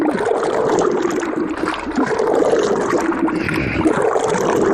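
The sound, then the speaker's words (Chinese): Steady churning and sloshing as water and paper pulp are stirred in a mixing tank during traditional papermaking, a continuous dense wash of watery noise at an even loudness throughout. “按比例加入清水，在搅拌桶中反复搅拌，最终化为细密纸浆。”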